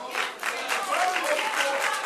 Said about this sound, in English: The crowd answered that question loudly enough to disrupt the meeting.